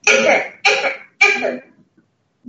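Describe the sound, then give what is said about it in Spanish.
Three harsh, loud coughs from a sick person with fever, shortness of breath and chills, evenly spaced and alone, followed by a few faint small sounds before quiet. “con fiebre, disnea, temblores y mucho tosió.”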